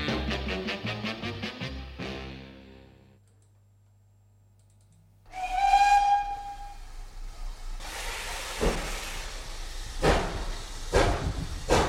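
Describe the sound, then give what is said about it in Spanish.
A steam train's whistle sounding for departure: a sustained tonal blast with bright harmonics, preceded by a run of quick clicks and followed by broad hissing noise with several sharp bursts. “Así que vamos a subir porque este tren pita su salida y no espera a nadie.”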